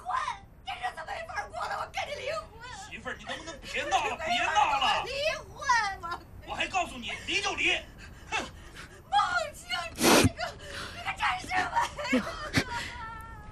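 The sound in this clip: A man crying in gasping, whimpering sobs, many uneven bursts of wavering, voiced breaths with short pauses between them.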